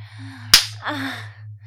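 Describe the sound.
A single sharp slap or smack on skin cracks out loudly midway, over a steady low hum that runs throughout.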